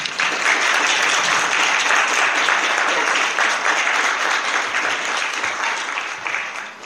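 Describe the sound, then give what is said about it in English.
Audience applause welcomes a speaker to the stage at a 2016 award talk event, a dense, steady roar of many clapping hands that holds loud throughout and eases off slightly near the end. “Can we please give her a warm welcome?”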